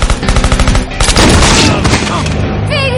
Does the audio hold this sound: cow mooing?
no

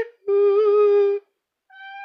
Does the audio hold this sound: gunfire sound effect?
no

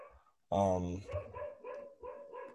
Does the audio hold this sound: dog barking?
yes

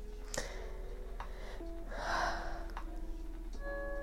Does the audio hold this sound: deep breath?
yes

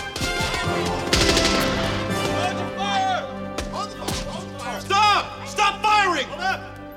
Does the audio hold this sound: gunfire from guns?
yes

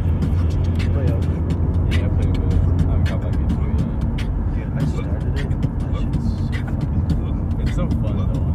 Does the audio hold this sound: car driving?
yes

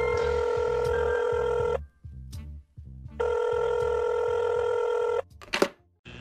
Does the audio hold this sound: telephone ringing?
yes

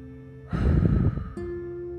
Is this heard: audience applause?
no

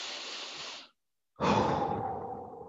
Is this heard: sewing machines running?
no

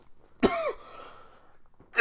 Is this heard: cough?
yes

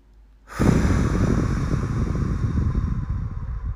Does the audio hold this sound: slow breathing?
yes

